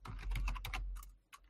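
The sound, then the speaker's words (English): Computer keyboard typing: a quick, steady run of clacking keystrokes, moderately loud, that thins out, pauses briefly, then ends with a couple of final taps, with no talking. “I'm just typing in now.”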